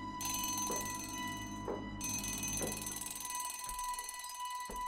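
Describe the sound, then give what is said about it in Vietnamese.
An alarm bell rings nonstop in a room, a loud sustained metallic ringing with a bright high edge and regular pulses about once per second, with no voices. “Tiếng chuông báo vang lên khiến cả lũ trong phòng giật mình.”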